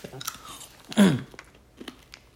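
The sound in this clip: A hard blue candy is bitten, giving one loud, crisp crunch, surrounded by a few faint clicks and mouth sounds.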